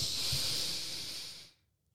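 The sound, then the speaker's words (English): A deep belly breath drawn in as one long, steady, breathy hiss that lasts about one and a half seconds, then cuts off into silence. “Take one nice deep breath in. Deep belly breath.”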